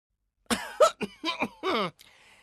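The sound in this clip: Throat clearing: a few short, rough, voiced bursts in quick succession, each gruff and harsh, alone without other sounds.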